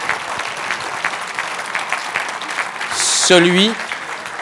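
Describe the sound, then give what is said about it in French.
An audience claps for three projects at a prize event before the winner is announced. The steady, dense clapping comes with voices, and a short voiced cheer stands out near the end. “je vous demande peut-être de les applaudir les trois”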